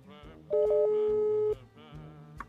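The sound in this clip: A steady telephone tone sounds for about a second from a call that goes unanswered, with brief muffled voice sounds before and after it.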